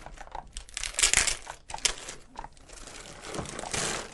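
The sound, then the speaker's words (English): Gift wrapping paper crinkles, crunches and tears as a tightly wrapped present is opened, in irregular bursts of rustling that swell loud and then ease off. “I'll start on unwrapping it. This is quite a this tight is knot. Wrapped very, very well, I should add.”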